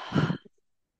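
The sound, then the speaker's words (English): A single deep breath exhaled out through the mouth during a breathing exercise, a soft breathy rush that lasts under half a second and then fades to silence. “Big inhale to the top of the breath. Yeah. Force a bit more air in at the top. And exhale out the mouth.”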